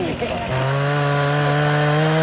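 A chainsaw cuts to fell half a pine tree, its engine catching about half a second in and then holding a loud, steady, high-pitched whine.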